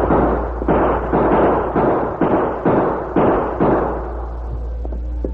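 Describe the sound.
A volley of gunfire in a Western skirmish with Indians: a rapid string of heavy, muffled shots in close succession, each one a broad burst, with the last fading into a quieter rumble.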